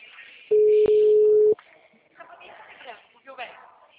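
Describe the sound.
The ringing tone of an outgoing telephone call: one steady, low-pitched tone about a second long, followed by faint voices talking on the line.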